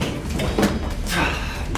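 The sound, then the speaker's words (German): An elevator door sliding shut, heard as brief rushing swooshes of the moving panel against a busy background. “Die Fahrstuhltür schließt sich direkt vor seiner Nase.”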